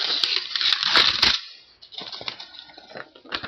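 Paper rustles and crinkles as a letter is pulled out of a large pile of mail. The handling is busiest and loudest in the first second and a half, then turns into quieter, scattered crackles.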